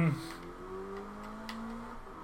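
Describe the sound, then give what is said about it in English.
An engine drones as a car in a racing video game sets up a burnout and rolling start, its tone climbing slowly in pitch, steady and moderately loud. “I'm gonna burn out and do a rolling start.”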